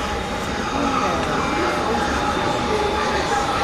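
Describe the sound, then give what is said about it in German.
A subway train arriving at a station platform, heard as a steady, loud rumble and roar of wheels and motors with a thin high whine, and faint voices underneath. “Ah, da kommt schon die Bahn.”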